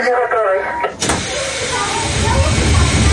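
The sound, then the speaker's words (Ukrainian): The doors of a rail car close after a signal, giving a broad rushing whir that swells and holds steadily after a brief voice at the start. “Ми почули сигнал, закрили двері.”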